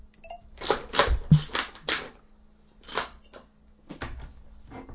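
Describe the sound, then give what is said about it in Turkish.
An apartment door being opened: a few sharp clattering rattles and clicks in quick succession, then a quieter pause and a couple more knocks of handling near the end. “Kapıyı açayım, bekle canım.”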